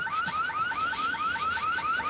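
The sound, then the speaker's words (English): A car alarm goes off in a loud, rapid cycle of rising electronic whoops that repeat at an even pace. No voices are heard. “gosh, that's kind of an annoying noise, isn't it? It's that same car alarm that's always going off.”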